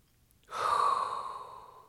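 A single deep inhaled breath, heard alone. It begins abruptly after a moment of quiet and holds as a strong, airy hiss that slowly fades.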